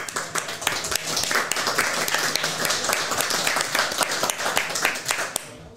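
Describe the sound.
Audience clapping at a live event: a loud, dense burst of many hands applauding steadily, cutting off abruptly at the very end.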